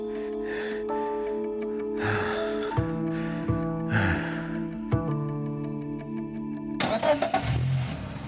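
A car engine starts and pulls away as the car is stolen in a drama scene. A low, mid-pitched rumble rises into louder revving near the end, over sustained steady tones.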